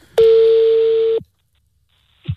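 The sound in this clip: A telephone tone while a call is placed: one loud, steady, mid-pitched tone lasting about a second, with a click at its start and end, then a short quiet gap and a brief soft thump.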